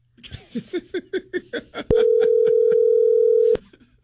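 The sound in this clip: Telephone ringback tone on an outgoing call: one loud, steady, unbroken tone lasting about a second and a half, preceded by a short run of brief voice-like sounds.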